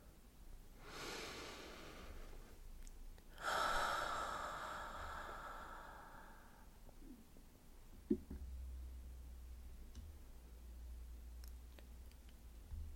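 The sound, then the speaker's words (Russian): Faint deep breathing during a guided relaxation exercise: two soft, airy breath sounds, the second longer and fuller, followed by quiet. “Сделайте глубокий вдох.”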